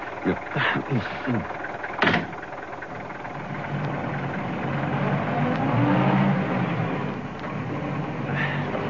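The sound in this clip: A taxi cab's engine runs with a steady low mechanical rumble that swells slightly midway. People talk over it at the start.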